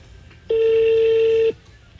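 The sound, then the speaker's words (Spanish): A telephone tone marks a call being transferred: a single steady, fairly loud beep lasting about a second at a flat pitch, with quiet line noise before and after. “Su llamada está siendo transferida.”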